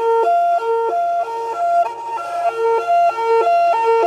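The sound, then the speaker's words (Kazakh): A loud emergency siren repeatedly alternates between a high and a low tone in a steady, fast hi-lo pattern that continues without pause. “Сирена.”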